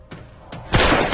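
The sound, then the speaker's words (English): Gunfire as two men exchange shots: two brief, sharp bangs come first, then a much louder, dense burst of noise that carries on to the end. “Lester jumps out and exchanges fire with Ray.”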